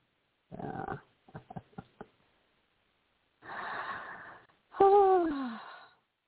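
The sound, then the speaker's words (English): A deep breath is drawn in and let out as a voiced sigh that falls in pitch, preceded by a short breathy rush and a few soft clicks. “I'm just taking a breath because it's just so wonderful.”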